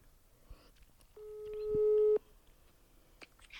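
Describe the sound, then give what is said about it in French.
A telephone ringback tone while calling a number: a single steady, buzzy tone about a second long that swells in loudness and then cuts off, with faint background noise around it. “Alors j'ai un autre numéro. J'espère que vous aimez bien ça parce que moi j'adore, mais je sais pas ce que les gens vont me dire. Allez, on rappelle. On appelle. Je crois que j'ai jamais appelé ce numéro encore.”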